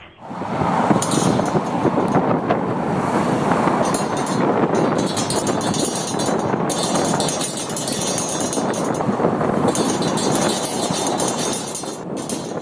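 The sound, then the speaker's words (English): A relatively new fence along the Aurora Avenue Bridge rattling in the wind, heard as a dense, continuous metallic clatter with rough wind noise and a few brief sharper clinks. “That's the sound of the relatively new fence along the Aurora Avenue Bridge rattling in the wind.”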